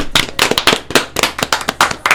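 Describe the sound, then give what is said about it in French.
Audience applause: many sharp, crisp claps in a dense, steady stream for the whole stretch, with no voices over them. “On applaudit Sarah, s'il vous plaît.”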